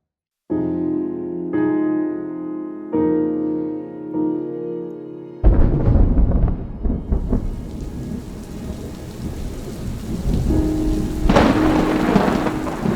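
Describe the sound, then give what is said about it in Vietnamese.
Thunder rumbles low and heavy as rain pours down at night onto a small thatched-roof house, the downpour a dense, steady hiss that swells louder near the end. “Tiếng sấm rền vang trên bầu trời đêm, theo sau đó là cơn mưa như trút nước xuống căn nhà lá nhỏ.”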